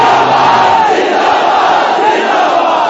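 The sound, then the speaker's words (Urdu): A crowd shouting the religious slogan Tajdar-e-Khatm-e-Nabuwwat in unison, a loud, sustained massed roar of voices that holds steady without a break. “تو اس واسطے یہ نعرہ زور سے لگانا ہے, تاج دار ختم نبوت,”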